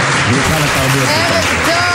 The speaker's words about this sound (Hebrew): פה אנחנו נכניס מחיאות כפיים של קהל במקום אחר.